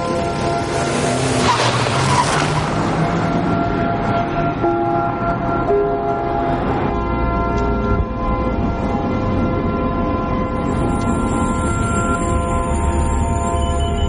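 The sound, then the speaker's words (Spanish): A car drives away from a building site, its engine and road noise a loud, steady, continuous roar throughout, with a thin high tone coming in near the end. “El hombre se pone el cinturón de seguridad y arranca pone el intermitente y se marcha de la obra.”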